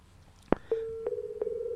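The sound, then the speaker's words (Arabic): A telephone line cutting off mid-call: a sharp click, then a steady mid-pitched tone that holds to the end, with a few faint ticks over it. “انقطع الهاتف”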